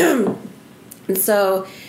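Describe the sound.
A brief throat clearing from a speaker with a tickle in the throat, set between stretches of ordinary talk.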